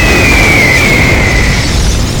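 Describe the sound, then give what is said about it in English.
A loud, sustained explosion roar as fire blows apart the back half of a crashed jet resting in water. Dense rumbling noise stays at full strength throughout, with a faint whistling tone gliding slightly downward. “just about to thank its maker for being watertight, when the fire around Jean explodes into a dazzling light”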